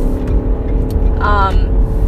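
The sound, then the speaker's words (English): Motorcycle passing by: a loud, low engine rumble runs throughout, with a brief higher-pitched whine rising out of it in the middle before it settles back. “oh my god, go away, motorcycle, leave me alone. That's right, leave.”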